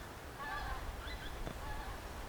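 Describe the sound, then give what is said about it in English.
Faint honking of geese flying overhead, a few scattered nasal calls drifting above a steady background hiss. “these amazing birds have travelled so far, honking away above me.”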